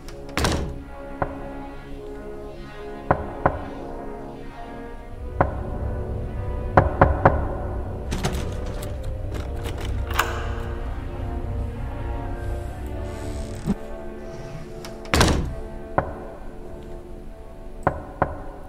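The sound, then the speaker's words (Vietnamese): Knocking from inside a coffin late at night: hollow thunks and knocks sound at irregular intervals, sometimes in quick pairs, over a faint low background hum. “từ trong quan tài làm cho cả gia đình chúng tôi hoang mang. Trong cái đêm khuya vắng ấy, cái tiếng gõ ấy nó ám ảnh vô cùng. Nó cứ vang lên dứt quãng, dứt quãng.”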